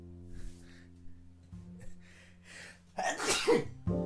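A single loud, sharp sneeze bursts out during a recording session, a harsh noisy blast that cuts through a steady low hum, with quieter faint sounds before it.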